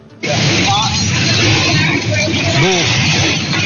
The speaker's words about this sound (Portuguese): do barulho que faz dentro do ônibus. Olha, olha o barulho. Dentro do ônibus.